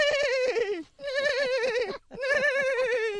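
A person imitates a horse whinnying with three long, quavering, high-pitched vocal calls separated by brief pauses, the first tailing off downward.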